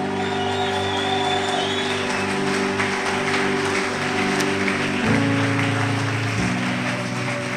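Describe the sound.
Congregation at a Sunday church service applauding and cheering, with dense, continuous clapping and scattered cheers over a sustained musical backing.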